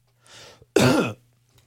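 A cough into a microphone: a softer breathy rasp, then one loud, harsh, throaty burst lasting under half a second, heard alone with no talking.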